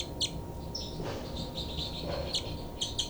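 Birds calling in a bird survey, with faint high chirps and short whistled notes scattered across a quiet background, a few calls near the start and a cluster near the end.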